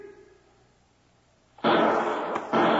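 Gunshots fired from a lower window in a radio drama: after a quiet stretch, two loud, harsh bursts ring out in quick succession, each sustained with a broad rushing roar.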